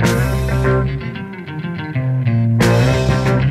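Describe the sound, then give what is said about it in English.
Zim Heavy, 1970s Zimbabwean rock music, plays loud and dense with steady driving instruments and layered harmonic tones throughout, briefly thinning near the middle before surging back. “Zim Heavy. It sounds like this.”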